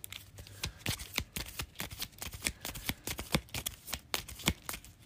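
Cards shuffled back into an encounter deck during a tabletop card game, with many rapid, crisp riffling snaps and flicks in a fast, uneven rhythm, heard alone without talk.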